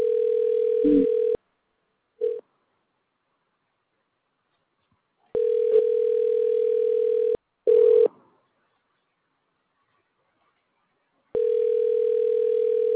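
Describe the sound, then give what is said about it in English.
Telephone ringing tone during a call: a steady, mid-pitched electronic tone in several bursts of uneven length separated by silent gaps, with a couple of brief noisy clicks in between. “It's ringing.”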